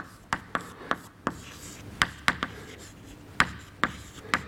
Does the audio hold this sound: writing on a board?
yes